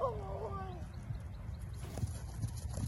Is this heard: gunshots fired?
no

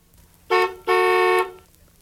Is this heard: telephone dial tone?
no

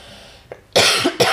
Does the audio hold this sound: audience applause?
no

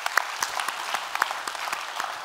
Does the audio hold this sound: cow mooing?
no

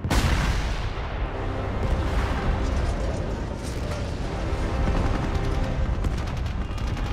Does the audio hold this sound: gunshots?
yes

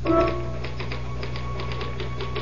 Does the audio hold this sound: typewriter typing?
yes

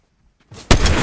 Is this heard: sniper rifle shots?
yes

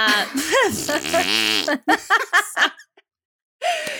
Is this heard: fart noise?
yes

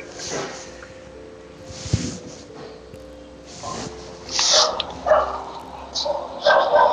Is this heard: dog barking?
yes

